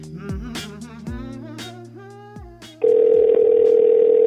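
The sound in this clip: Outgoing call ringing on an iPhone, a loud, steady buzzy ringing tone that starts after a few seconds of melodic music and holds unbroken to the end.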